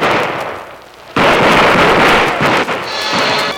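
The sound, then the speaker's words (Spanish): A soldiers' gunfire volley in a dramatised execution of Emiliano Zapata at Hacienda Chinameca. After a quieter lead-in, a sudden loud burst erupts and continues as a dense, sustained crackling roar, briefly dipping before going on. “Los soldados le presentaron armas dos veces. A la tercera vez, dispararon.”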